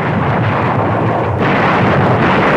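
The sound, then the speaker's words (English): Naval bombardment from battleships shelling coastal defences at daybreak, heard as a continuous, loud, dense roar of rumbling blasts that blur together without clear gaps between individual shots. “The naval bombardment continues.”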